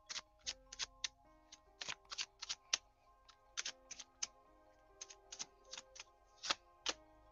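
Tarot cards are shuffled with many faint, sharp clicks and flicks in irregular bursts, some packed together and others spaced apart, with nothing else heard.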